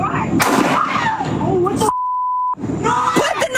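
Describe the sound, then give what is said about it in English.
Gunshots ring out in police video of a confrontation with a woman holding a knife. Sharp, loud blasts mix with raised voices, and a steady censoring beep cuts in partway through. “Another officer shortly arrived on scene to get Bennett to drop the knife, and she was shot a second time when she reached for that knife again.”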